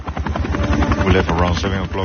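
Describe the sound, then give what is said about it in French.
Helicopter in flight on an early-morning trip in South America, its rotor beating in a steady, loud rhythmic chop that runs throughout, with a voice speaking over the noise. “On est parti à 7h du matin en hélicoptère.”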